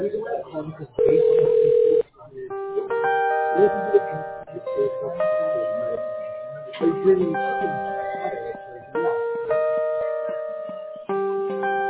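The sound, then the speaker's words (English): Touch-tone dialing of a number on a telephone line: a steady dial tone gives way to many short paired beeps of changing pitch, in uneven bursts with gaps between them. “I'm dialing right now. Just 1 second.”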